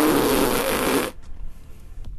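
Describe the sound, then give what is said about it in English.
A person imitates a fart with the mouth during a casual Thanksgiving chat: a loud, buzzing raspberry that lasts about a second, then cuts off into near quiet. “For those that don't know, that was a fart sound. I was just trying not to spit on you.”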